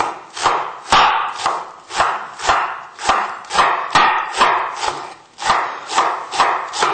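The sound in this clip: Knife chopping of filling for Mongolian buuz dumplings: many sharp, evenly spaced strikes in a brisk, steady rhythm that runs throughout, with no talking.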